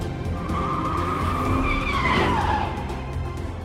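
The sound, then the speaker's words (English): Tires squeal as cars skid around a roundabout, a long screech swelling over a steady engine roar and fading slightly toward the end. “The two cars drive around a roundabout.”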